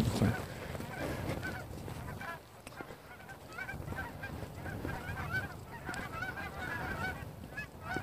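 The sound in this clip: Geese honking, heard on a morning walk: repeated, overlapping honks form a faint, steady chorus that carries on throughout.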